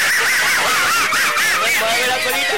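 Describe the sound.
A duck quacks and geese honk in dense, loud, overlapping calls with a warbling, wavering pitch that runs without a break.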